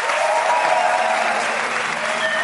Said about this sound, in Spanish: Así que un aplauso para Jorge, que está en la calle, evidentemente.